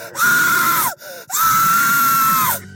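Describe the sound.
A girl's shrill screams in a horror film sound effect of a girl trapped in a basement: two long, loud, high-pitched screams, the second one longer, separated by a brief gasp-like pause.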